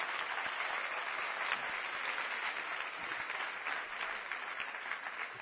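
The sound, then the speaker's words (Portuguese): Church audience applause, a dense wash of many hands clapping steadily and loudly with no voices on top. “que Jesus receba estas palmas em nome do Senhor. E quando vocês aplaudirem o Senhor, aplaudam mesmo, mas com vontade.”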